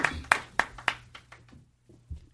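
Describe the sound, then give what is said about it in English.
Audience clapping for a contestant: a few sharp, separate claps at the start that thin into scattered, softer claps and fade almost to quiet. “can everyone please just give Todd a quick round of applause?”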